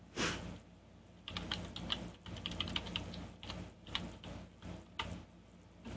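Keys clatter on a computer keyboard in many quick, uneven clicks, with brief pauses between short bursts of typing and no one speaking.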